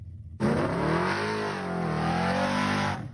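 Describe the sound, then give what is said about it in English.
A car accelerates hard with wheel hop, its rear tyres set to a low combined pressure. A loud, sustained engine roar dips in pitch and then climbs again under full throttle, with no voices. “Oh, there we go. Look at that. Look at that wheel hop.”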